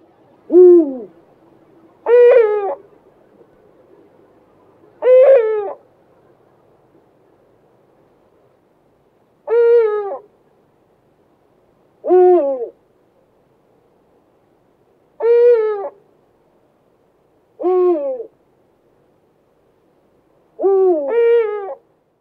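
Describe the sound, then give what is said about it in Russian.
Eurasian eagle-owl hooting: a series of deep, resonant hoots, each a short rich call spaced a few seconds apart against a quiet background. “Филин.”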